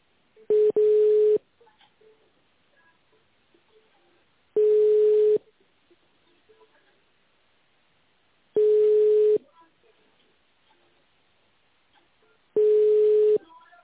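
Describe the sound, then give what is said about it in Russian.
Ringback tone of a phone call placed to an office extension: long, steady, evenly spaced beeps that repeat about every four seconds, alone on a quiet line. “Пожалуйста, наберите в тональном режиме внутренний номер сотрудника или дождитесь ответа секретаря.”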